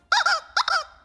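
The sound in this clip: A chicken-shaped game-show buzzer squeaks twice, each bright, high squawk split into two quick pulses, loud and clear against silence.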